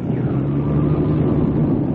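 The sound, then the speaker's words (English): A light aircraft engine drones in flight over the desert, a steady low, rough hum that holds without a break throughout. “I think this motor's coming back. We're now at about 800 feet.”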